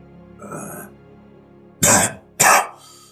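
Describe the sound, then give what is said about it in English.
A voice imitates a cough: a soft rasp first, then two loud, sharp coughing bursts in quick succession. “As he coughs and a whole bunch of blood just comes out.”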